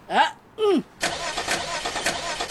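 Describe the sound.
A car engine starts after a couple of brief voice-like calls, catching at about one second and settling into a steady, rough running roar.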